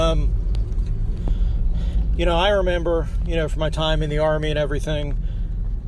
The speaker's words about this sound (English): Sorry about the background noise. I'm driving to work.